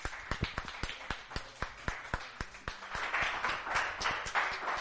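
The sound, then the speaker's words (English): Church audience clapping and cheering: sharp, irregular claps dominate the first part, then a broader swell of crowd cheering and clapping fills the second half. “Give the Lord a cheer.”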